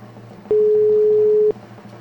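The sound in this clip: Telephone ringing tone on an outgoing call placed from a radio studio phone: a single steady, mid-pitched tone lasting about one second over a faint low hum, with quiet line noise before and after.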